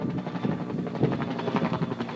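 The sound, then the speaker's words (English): A low, throbbing rotor drone from firefighting helicopters and planes flying over a burning wheat-stubble landscape east of Walla Walla after dropping water and retardant, a steady, fairly faint rumble with a pulsing beat. “I climbed up to the top as helicopters and planes flew overhead after dropping water and retardant on the fire.”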